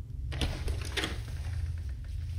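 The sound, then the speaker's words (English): A door chain lock slides free in a short metallic scraping rattle of a few gritty bursts over a steady low rumble. “I put on my best smile and slid the chain lock free.”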